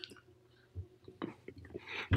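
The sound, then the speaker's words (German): Quiet, irregular mouth clicks and soft wet smacks come from someone chewing a big piece of coconut chocolate, scattered sparsely at first and then thickening into a louder cluster at the end. “Also ich esse jetzt übrigens Schokolade. Oh ja, das ist immer gut im Podcast. Mhm. Na gut. Erzähl doch noch weiter, während ich das riesige Stück von der leckeren Kokoschokolade in mich reinstopfe.”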